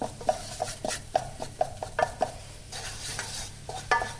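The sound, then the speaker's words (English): A spoon stirring a thick starchy flour paste in a pan on the hob. Repeated scraping and knocking strokes against the pan come in an uneven rhythm over a faint low hum, with no voices. “and stir it and cook it on the hob for about 30 seconds. And you'll see it come together at this point and form a ball.”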